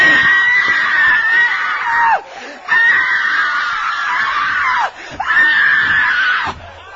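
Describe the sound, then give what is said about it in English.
A voice imitates a game show contestant screaming, with three long, loud, strained shrieks separated by brief pauses. “And she shouts the roof off a house. And everybody joins in and shouts with her. You've seen them do it, ain't you?”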